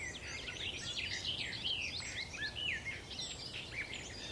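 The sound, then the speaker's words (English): Garden warbler song on Sugar Loaf mountain, a throaty, rambling, continuous warble of quick varied phrases, fairly faint over a steady background hiss. “Very throaty song, that one. Trying to find the singer. Might be a garden warbler again.”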